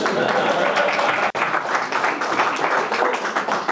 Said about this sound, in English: So I'm going to officially finish at this point to tremendous applause.